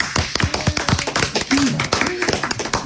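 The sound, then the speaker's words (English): Scattered clapping from a studio audience giving a hand to on-air guests, a run of sharp claps mixed with talking voices. “Let's have a hand for them.”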